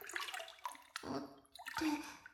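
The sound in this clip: Water splashes and sloshes in a filled bathtub, a few distinct bursts of churning, bubbly movement with quieter lapping between them and no voices.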